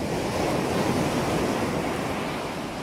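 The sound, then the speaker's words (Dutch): Sea waves break on the shore in calm weather, making a steady, dense wash of surf noise. The rushing hiss keeps an even loudness throughout, with no voices. “als we aan de zee denken, dan horen wij gewoon dit.”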